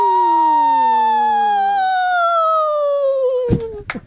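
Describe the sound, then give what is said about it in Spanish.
Two women howl together as a duo in long sustained cries that slowly fall in pitch. One voice drops out before the other, and the howling ends in a short burst of noise. “Recuperando el poderío del aullido aquí en Los Salvajes.”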